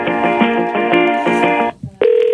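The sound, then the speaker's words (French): Telephone keypad tones are keyed while calling an airline's automated phone line, with the hash key pressed to skip a recorded message. Several bright, steady beeps run together, then a brief gap, then one sustained tone. “Appuyez sur dièse pour ne pas écouter ce message. D'accord, le coup du dièse, c'est fait.”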